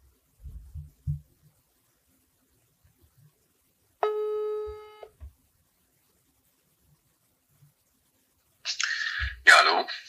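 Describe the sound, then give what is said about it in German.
A phone's ringing tone on speakerphone sounds as a single steady buzzing beep about a second long, set between brief faint noises and followed by talk near the end. “Und ich werde jetzt einfach Philipp anrufen. So, ich mach's auf Lautsprecher.”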